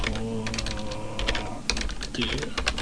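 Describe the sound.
Typing on a computer keyboard, with many quick, light key clicks tapping in an uneven rhythm throughout, fairly faint against steady background noise.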